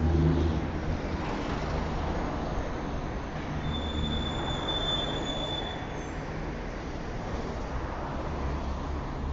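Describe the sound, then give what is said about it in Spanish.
Metro train wheels squealing on arrival at a station: a thin, high, steady whine rises for about two seconds midway through a loud, continuous rail rumble, with no talk. “Llegamos al Metro Morelos.”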